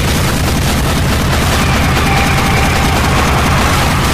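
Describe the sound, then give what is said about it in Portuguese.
Shotgun gunfire in a video game forms a loud, dense barrage of booming blasts that run together continuously, with no clear gaps between shots. “Ah, você tem armas? Então leve um shotgun!”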